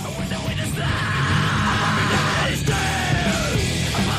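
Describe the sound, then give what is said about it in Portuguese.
A long, sustained yell within a music track, held for several seconds over a loud, dense musical backing that continues throughout. “Que a princípio é só um grito, mas dentro desse negócio aqui faz total sentido, entendeu?”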